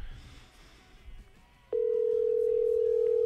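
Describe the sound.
Telephone ringback tone on an outgoing call: after a quiet stretch, a single steady low-pitched tone starts and holds unbroken to the end.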